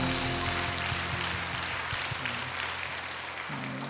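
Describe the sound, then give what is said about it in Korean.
An audience applauding during an Easter Sunday church service, with dense, even clapping that holds steady throughout and a faint low hum beneath it. “서로에게 축복의 박수를 나누겠습니다.”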